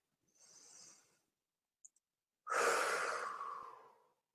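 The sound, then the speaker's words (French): Slow meditative breathing, with a soft, faint breath, then a couple of tiny clicks, then a longer, louder, rushing breath that gradually fades away. “quand on est aligné comme ça, là, et puis qu'on inspire.”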